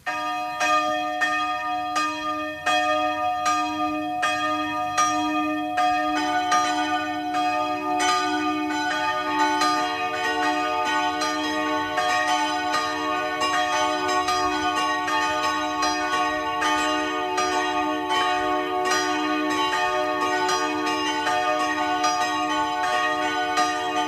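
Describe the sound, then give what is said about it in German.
Noon bells of a branch church in Rohr, southern Burgenland, ring in a continuous, resonant peal of overlapping metallic strokes. The ringing grows fuller and denser after the first few seconds and sustains steadily with no voices. “Es ist 12 Uhr. Sie hören die Glocken der Filialkirche von Rohr im Burgenland.”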